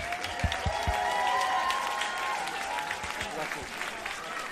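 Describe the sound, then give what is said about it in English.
Loud crowd applause and cheering for the winner of a beatbox championship, a dense, steady wash of clapping that holds throughout, with voices shouting over it. “One more time, give it up, Piratibon!”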